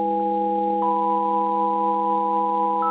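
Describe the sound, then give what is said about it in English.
Several steady electronic tones, not harmonically spaced, sound together as an artificial radio signal with a wobbling, clashing quality. One tone shifts early on and the stack holds on evenly at a constant level. “when you play tones that are not spaced harmonically, they wobble. They're like, like they're a mess. These tones,”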